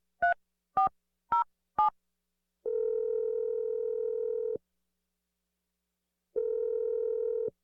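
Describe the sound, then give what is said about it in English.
Telephone dialing: four short keypad tones beep in even succession, then two long, steady ringing tones sound with a pause between them, with no voices. “So I'm just going to dial his number if you're ready.”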